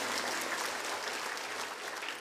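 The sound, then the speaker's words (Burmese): A church audience claps their hands in praise during a Sunday sermon, a dense, even patter of applause that holds steady throughout. “ဟာလေလုယာဟာလေလုယာလက်ခုပ်တီးလက်ပြားကိုချီးမွမ်းကြရအောင်အာမင်”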